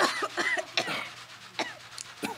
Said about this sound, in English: Stop coughing! I can't help it! It's all dusty!